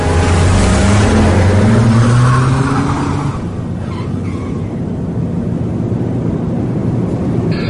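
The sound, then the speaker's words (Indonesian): A car accelerates on a cold, quiet night, its engine revving with a rising pitch through the first few seconds, then settling into a loud, steady roar of engine and road noise. “aku langsung gas mobil memecah kesunyian malam yang sangat dingin saat itu.”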